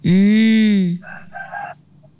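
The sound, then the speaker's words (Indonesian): A rooster crows loudly, one long, steady, strongly harmonic call lasting about a second, followed by a couple of shorter, higher-pitched calls that fade out. “ada di belakang suara ayam berkokok lagi cantik”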